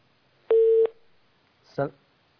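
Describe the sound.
Telephone tone signalling an incoming caller: one steady, mid-pitched electronic beep lasting about a third of a second, followed a moment later by a brief, softer burst of sound.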